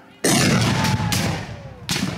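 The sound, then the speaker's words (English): Musket fire during a Civil War reenactment mock battle, three loud blasts in quick succession, each followed by a long rumbling tail. “During the mock battle, we see their version of history play out. Muskets crack, units advance, and men fall down dead in the field.”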